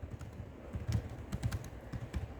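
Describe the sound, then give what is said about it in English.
Typing on a computer keyboard, a quiet, steady patter of soft key clicks in an irregular rhythm. “This is a different keyboard, so spelling doesn't count, right?”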